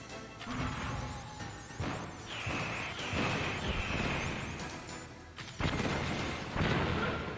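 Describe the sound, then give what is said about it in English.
A stun grenade goes off in the Metal Gear Solid video game: several heavy booming bursts punch through a dense, steady roar of blasts and gunfire-like crackle that stays loud throughout. “Oh no, where's my... Goddamn. Trap grenade. Whoa. Oh my god, I threw a stun grenade instead.”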